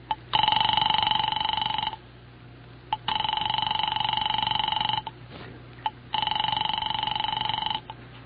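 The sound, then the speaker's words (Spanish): An unanswered telephone rings at a home: three long electronic ringing bursts, each lasting over a second and separated by short pauses with faint clicks, all above a low steady hum. “decide telefonearle a su domicilio en Morácuaro”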